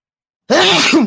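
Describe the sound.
A single loud sneeze, an abrupt breathy burst that starts sharply after silence and fades at the end.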